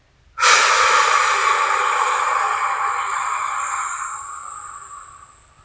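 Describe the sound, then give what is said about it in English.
A single deep exhalation out through the mouth during a guided breathing exercise: a loud, breathy rush that starts abruptly and tapers off gradually over about five seconds, with no talk. “Filling your whole body with breath and exhaling deeply out your mouth.”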